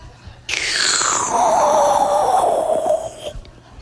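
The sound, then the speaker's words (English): A voice imitates a loud sucking sound: one sustained, wheezy, groaning tone lasting about three seconds that slides steadily downward in pitch, loud and heard alone. “When you see him coming, you hear this loud sucking sound like...”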